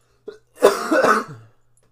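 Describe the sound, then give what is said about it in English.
A person coughs alone: a short catch in the throat is followed by one longer, harsh, raspy cough that trails off into quiet. “Who's coughing now? I told you I was going to cough.”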